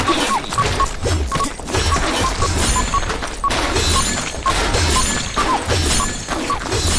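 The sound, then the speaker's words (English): Crashing, smashing impacts as a shield bash strikes a goblin in a video game. Many hits land in a dense, busy rhythm, with no speech. “Here's a goblin. I've seen these guys before. Can I shield bash them?”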